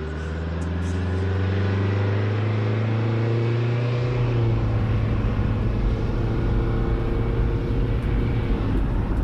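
The engine of a vehicle starting off and driving: a steady hum that deepens into a broader, louder rumble partway through and then holds.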